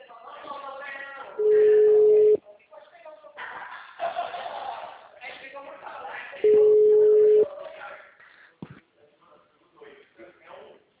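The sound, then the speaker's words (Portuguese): Telephone busy tone after a dropped call: two long, steady, mid-pitched beeps, each about a second, sound over a phone line while people talk before, between and after them. “a ligação caiu. Tá conseguindo me e ouvir bem agora?”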